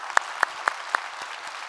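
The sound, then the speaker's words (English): Applause from a church audience welcoming people from another campus, heard as a handful of sharp, evenly spaced claps. The last ones grow fainter over a steady wash of background noise. “If you would, put your hands together, welcome them into our time of study here today.”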